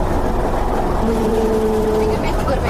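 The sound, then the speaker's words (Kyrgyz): Diesel engine rumble from a motor grader working with a snow loader to clear snow from the Too-Ashuu mountain pass road: a steady, dense low drone with a faint tonal whine rising briefly in the middle. “Бүгүн Тоо Ашуунун жолун автогрейдер кар жүктөгүч машине менен бирге тазалап жатат.”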